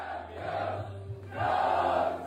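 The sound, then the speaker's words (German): Arsenal football fans cheer their club's first title in 22 years, a dense roar of many voices that swells louder partway through and holds steady. “Und umso schöner ist der Jubel.”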